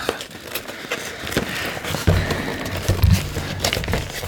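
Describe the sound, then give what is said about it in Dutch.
Crinkly rustling and crackling come from a gift package being torn open by its tear strip. The noise is continuous and bright, with a few sharper crackling tears and rough scraping bursts. “Dat is lastig als dat ding afbreekt voor dat open te scheuren. scheuren. ja, ja, het ritsje. Het ritsje is gescheurd.”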